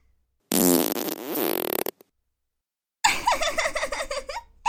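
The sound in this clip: Two long farts: first a loud, buzzy blast of over a second, then after a pause a rapid, sputtering, rattling one that pulses to the end.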